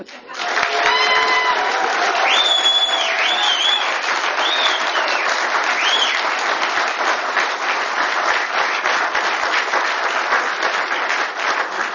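General Services employees in an audience applaud and cheer with dense, steady clapping that holds loud for the whole stretch, and a few shrill whistles ring out early on.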